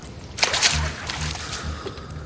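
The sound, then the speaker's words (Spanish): Water thrown onto a floor splashes over bare feet: a brief wet splash early on, then quieter trailing noise. “Medianoche tira agua al suelo y moja los pies desnudos de John.”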